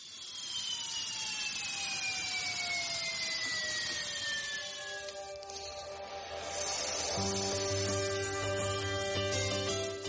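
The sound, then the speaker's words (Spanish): A jet airliner landing sound effect: a continuous engine roar with whining tones that slowly fall in pitch, joined later by a deep steady rumble, with no voices. “lamentablemente este avión tiene que aterrizar”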